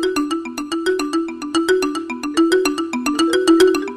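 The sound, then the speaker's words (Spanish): A marimba- or timbila-like tone from a MIDI guitar picked with a plectrum: a quick, steady run of many short, bright, mallet-like notes in a bouncing melody, played alone. “también tenemos sonido como de marimba o de timbila, ¿no? Que sería este, mira. La timbila es un instrumento de Mozambique.”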